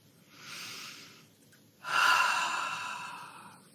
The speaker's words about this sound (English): A few nice more deep breaths.